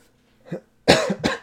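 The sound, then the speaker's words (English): A person coughs from a tickle in the throat. A faint throat sound comes first, then two sharp, loud coughs follow close together, with no talk. “You know when you have that like little tickle in your throat? I feel bad. Like that was probably so loud.”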